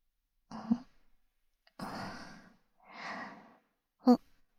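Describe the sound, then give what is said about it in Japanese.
Slow, deep breathing during an instruction to exhale and keep breathing deeply: a few soft, airy breaths drawn out over a second or so each, ending with a shorter, sharper breath. No voices. “吐いて。そのまま深呼吸してて。”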